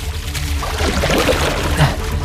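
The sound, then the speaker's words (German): Water sloshes and splashes as a boat's rudder is used as a paddle, making a loud, continuous churning swish with uneven surges throughout. “Ich nehme das Ruder jetzt zum Paddeln.”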